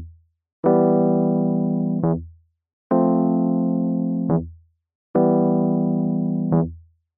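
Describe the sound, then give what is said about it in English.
A quick, anticipated low bass note E sounds under dissonant chords. Three sustained chords are each held for over a second, and each is clipped by a short, deep bass note, with brief silences in between. “Played normally, the bass note is quick and anticipated and sounds like this.”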